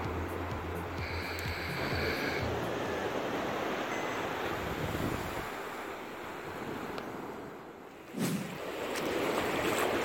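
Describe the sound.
Surf washing along the Black Sea coast just after sunrise, heard while walking in the shallows: a steady, broad hiss of breaking water mixed with wind buffeting the microphone, with one brief low bump near the end.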